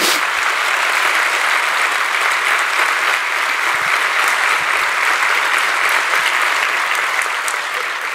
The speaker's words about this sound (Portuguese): Esta salva de palmas não é para mim e eu gostava que ela fosse assim com mais entusiasmo. Façam-la outra vez, mas com mais força.